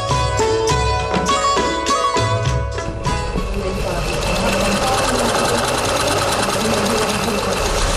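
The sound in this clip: A sewing machine stitches cloth in a sewing class, first in quick rhythmic bursts of mechanical whirring, then a steady continuous run, loud throughout and with a voice talking over it.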